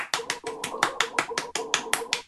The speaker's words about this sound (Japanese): はい、拍手。